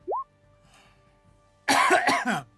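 A person coughs and chokes during a tabletop role-playing game session, letting out a quick run of harsh, throaty coughs after a stretch of near quiet.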